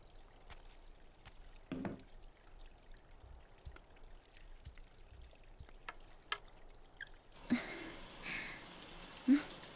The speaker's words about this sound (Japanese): お湯は出るわね。